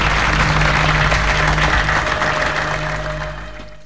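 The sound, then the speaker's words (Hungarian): An audience applauds two diamond industry representatives in a film scene, a dense, steady roar of clapping that gradually fades toward the end. “Ma jelen van körünkben a gyémántipar két olyan képviselője, aki szívvel lélekkel támogatja az előterjesztést. Kérem önöket, köszöntsék őket velem együtt!”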